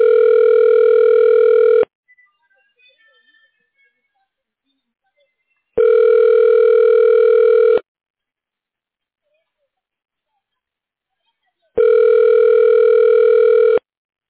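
Three long, steady electronic tones of a telephone call transfer signal, each about two seconds and separated by silence, sound loud and even with a hollow, buzzy pitch.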